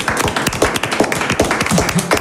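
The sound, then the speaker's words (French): Studio audience applause for a cooking team on a game show, a dense, even patter of many hands clapping throughout. “On peut donc applaudir l'équipe des cuistots.”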